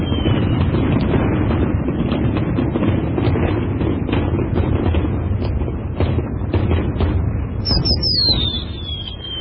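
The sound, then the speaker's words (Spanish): Fireworks and rockets go off in a dense, continuous run of crackling pops and bangs. A high whistling rocket tone slides downward near the end. “Sí, vamos, fuegos artificiales y cohetes.”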